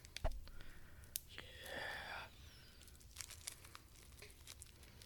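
Quiet unwrapping of a wrapped package: a crisp crinkle and a paper tear lasting about a second, surrounded by scattered small rustles and light taps.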